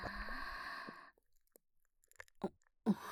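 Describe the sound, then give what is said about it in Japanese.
Soft chewing and crunching of food in a quiet setting, a few faint, irregular bites and mouth sounds following a brief stretch of other low noise, with no talk. “何度食べてもたまらないな。”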